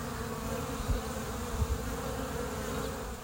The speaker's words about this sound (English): And the sound you're hearing right now is the sound of bees that I just recorded a little while ago with Melanie Kirby